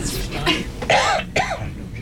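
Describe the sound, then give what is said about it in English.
A few coughs with some throat clearing from a person with a bad cough. The bursts are short, rough and moderately loud, separated by brief pauses. “I have a very bad cough.”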